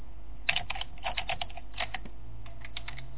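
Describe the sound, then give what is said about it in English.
Fingers type a command on a computer keyboard in several quick bursts of crisp keystrokes separated by short pauses, fairly faint and with no talk. “Okay, netstat, that's it. Okay, I'll type that in.”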